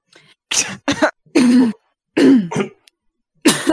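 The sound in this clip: Someone clears their throat and coughs in a string of several loud, rasping bursts with short gaps between them, as though from dust, and no talk in between.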